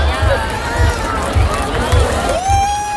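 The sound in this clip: A crowd of people chatting at an evening market in Dortmund, a dense, steady babble of many voices with music playing underneath.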